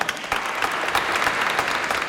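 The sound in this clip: Steady applause from an audience during a church service, dense and continuous throughout with no pauses.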